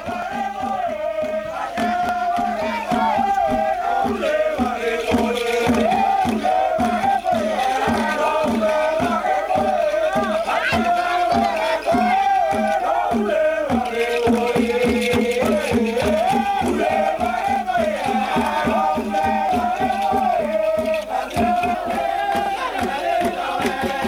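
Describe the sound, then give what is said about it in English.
A large crowd at a village welcome party in Malvoni, with loud, dense voices shouting and chanting together throughout, and sharp rhythmic hits running steadily underneath. “So this specific village called Malvoni had a special party to welcome us and to basically worship us. And I'll just play this clip for you guys so you can just have a look at it.”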